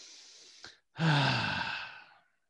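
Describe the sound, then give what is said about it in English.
A deep breath taken on cue: a soft, short inhale, a brief pause, then a louder, breathy exhale that fades over about a second. No talking. “Everyone take a big deep breath.”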